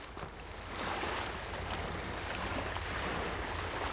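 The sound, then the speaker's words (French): Sea waves as heard in a seashell: a soft, continuous rushing wash of noise that rises slightly after the first second and then holds steady, faint throughout. “Regardez le coquillage. Vous entendrez la mer”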